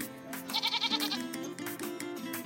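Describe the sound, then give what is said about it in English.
A goat bleats at a yoga session in a quavering, repeated call over a steady musical background. “There's not much to this audio clip besides some goat sounds.”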